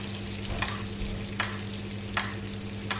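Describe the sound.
Lamb sizzles in a pan while being basted with foaming butter, giving a soft, steady frying hiss. Four brief splashy bursts come at regular intervals over a constant low hum.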